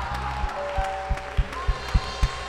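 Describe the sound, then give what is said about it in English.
Congregation clapping hands in a steady rhythm during a church service, sharp regular claps about three per second over low sustained musical tones. “Are you clapping your hands for the Lord?”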